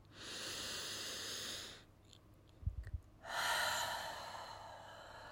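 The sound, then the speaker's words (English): A deep, slow, mindful breath: a long airy inhale, a brief pause with a few soft low bumps, then an equally long, steady exhale, all fairly quiet and with no speech. “Let's pause for a moment and take a nice, deep, slow, intentional, mindful breath.”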